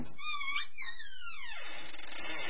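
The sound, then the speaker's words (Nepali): A girl crying alone in her room, a high, wavering wail that sweeps downward in pitch midway and trails off into a softer, breathy tail. “नानीको बाबा कोठामा छोरी रुँदै बसेकी छ”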